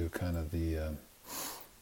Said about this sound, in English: So with eyes closed, relaxed and comfortable and safe, let's take a few breaths.